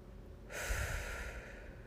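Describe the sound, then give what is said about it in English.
A deep breath drawn in through the nose during a guided meditation: after a brief quiet pause, a soft, airy rush of breath rises and holds to the end. “in through the nose and out through the mouth. 2 more. Inhale.”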